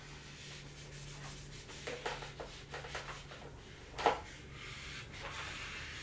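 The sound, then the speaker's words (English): Eraser rubbing out a pencil drawing on paper. Quiet, scratchy rubbing strokes come in irregular bursts, and one sharper scrape stands out near the end. “Yeah, I'll rub it out.”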